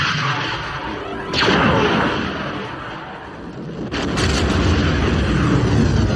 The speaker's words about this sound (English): I'm giving it the laser. Back up, fire in the hole. Here we go. Fire.